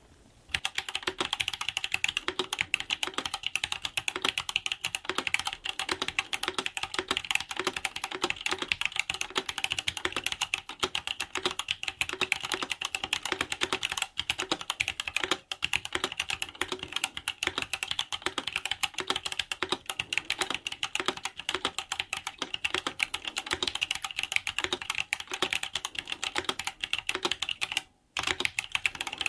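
Slow typing on a computer keyboard: many light clicking keystrokes in a fairly even, unhurried rhythm, carrying on for about half a minute with no voices.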